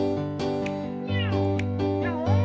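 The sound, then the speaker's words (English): Two pet cats meow, giving a few drawn-out, wavering cries over steady, changing musical tones that fit piano playing. “those are his cats that he owns. Two little putty tats that listen to him play the piano”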